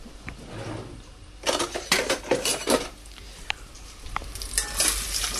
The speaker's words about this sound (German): Und bratet die gut an.